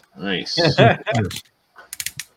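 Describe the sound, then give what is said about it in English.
Ratcheting joints on a toy figure give a few sharp, dry clicks in quick succession, right after a short stretch of talk. “Even that's ratchet, nice. Yeah, like this whole. Listen to that.”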